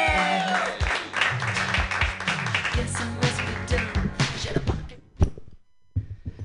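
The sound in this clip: Applause at an open mic comedy night: a dense clatter of clapping with a voice over it, thinning out and stopping near the end, followed by a few dull thuds.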